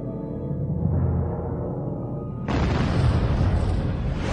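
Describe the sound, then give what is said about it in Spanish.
A volcanic eruption explosion at Mount Tambora, a 4,300-metre volcano on Sumbawa, Indonesia: a deep, low rumble, then about halfway through a sudden loud, roaring blast that stays sustained and wide-ranging to the end. “El 11 de abril, el monte Tambora estalló.”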